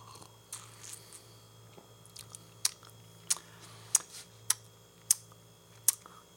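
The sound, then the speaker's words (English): Wet mouth smacking noises made while tasting something malty: about six sharp, distinct smacks grow louder in an uneven rhythm over a quiet background, with a few fainter lip clicks between them. “I just liked watching the waveforms form while I made that smacking noise.”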